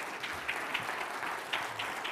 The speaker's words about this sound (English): Would you please give them a hand?